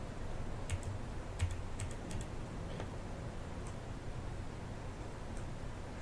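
Computer keyboard keys repeating rapidly on their own after a single press, heard as a few sharp, faint clicks over a steady low hiss, with no talking.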